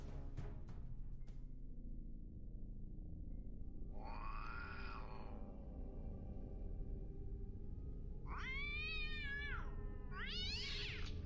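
A stray cat meows three times, first a long drawn-out wail, then after a pause two shorter, higher yowls, all fairly faint against a quiet low background.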